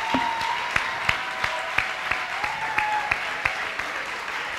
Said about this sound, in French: Acclamons pour le Seigneur. Let's clap for the Lord.